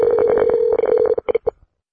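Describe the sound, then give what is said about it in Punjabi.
Telephone ringback tone on an outgoing call that is waiting to be picked up: a steady electronic tone that breaks into a few short pulses, then cuts off into silence. “ਤੇ ਹੁਣ ਕਾਲ ਤਾਂ ਦੇਖੋ ਚਲੀ ਗਈ ਹੈ, ਬਾਕੀ ਦੇਖਦੇ ਹਾਂ ਜੀ ਤ੍ਰਿਪਤ ਜੀ ਇਹ ਫੋਨ ਚੱਕਦੇ ਆ ਜਾਂ ਨਹੀਂ ਚੱਕਦੇ।”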